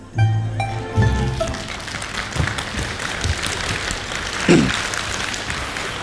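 Audience applause at a crosstalk comedy performance: steady, dense clapping that fills the whole stretch, swelling a few times and staying loud without pause.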